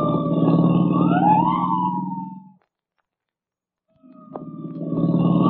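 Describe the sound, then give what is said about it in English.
A police car siren wailing over a loud, steady engine roar while chasing a coupe: the wail climbs in pitch and fades out, a stretch of silence follows, then the engine and siren return. “I'll give the siren all the way.”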